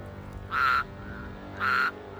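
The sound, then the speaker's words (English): Toads packed in a wooden trunk give two short, tonal croaks, evenly spaced and fairly faint over a low steady hum. “You open the wooden trunk with all the croaking toads, and a bunch of toads hop out and start hopping along the floor, and the whole thing is just full of toads.”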